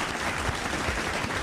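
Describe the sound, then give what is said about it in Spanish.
Audience applause in a brief burst: a dense, continuous patter of many hands at a steady level, with no distinct individual claps standing out. “Me uno a esos aplausos. Dios mío, qué aplauso”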